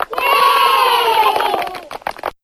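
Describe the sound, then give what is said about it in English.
Elementary school cheer squad children cheering together in a studio: a loud, sustained shout of many high voices that breaks into scattered short calls and then stops abruptly. “Who's that in the studio with you? Oh, those are the Barkington Elementary School Cheer Squad kids.”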